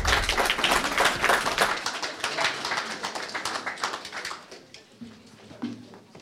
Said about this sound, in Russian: Первые участники готовятся, чтобы выйти на сцену, а зрители готовятся аплодировать и болеть за свои команды.